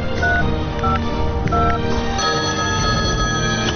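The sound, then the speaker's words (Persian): Telephone keypad tones as a number is dialed on a mobile phone: a quick series of short, bright electronic beeps laid over a dense, steady layer of other tones, loud and clear. “فقط کافی است با 886 چند تا 6 تماس بگیرید دیگه. دبی اندی چقدر خوب، بده به من اون گوشیت را.”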